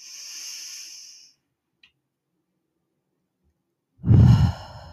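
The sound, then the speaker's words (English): A deep breath in, taken during a guided belly-breathing exercise: a soft, airy inhale lasting about a second, then silence, then a louder, voiced breathy sigh at the end. “So we're going to take one big deep breath in, and I want to invite you to just breathe really deeply into your belly.”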